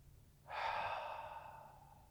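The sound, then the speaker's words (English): A single deep exhale, a soft airy sigh of breath that starts abruptly and slowly fades over about a second and a half, quiet and alone. “So let's exhale”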